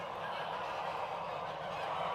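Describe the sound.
Geese honk on a goose farm in Lohne, Lower Saxony, on a vaccination day for about 1,500 birds. Many overlapping calls form a dense, steady chorus that never pauses.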